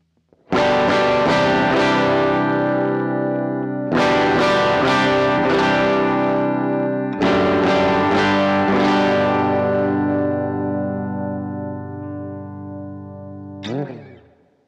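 Distorted electric guitar played through an amp simulator with the cabinet simulation turned off. It gives three loud strummed chords that ring out bright and fizzy, then a brief string scrape at the end.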